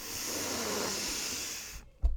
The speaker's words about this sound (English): we're just looking for full breaths, increasing that exposure by 30% in the lungs to oxygen. Fully in.